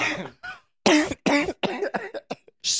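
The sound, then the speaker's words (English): A man coughs in a rapid series of many short, harsh bursts separated by brief gaps, loud and clear with no talk. “coughing during my plug.”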